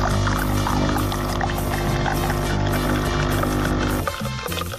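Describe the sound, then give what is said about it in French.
Hot water runs from a tap over an espresso cup to warm it before brewing, a steady rushing pour for about four seconds that then cuts off, with a tonal background beneath. “Mettez la tasse sous l'eau chaude.”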